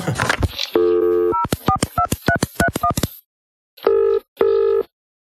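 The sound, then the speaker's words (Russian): Phone dialing tones as a call is placed: a steady tone gives way to a quick string of short keypad beeps. A pause follows, then two ringing tones. “Ну, сделаем звонок другу,”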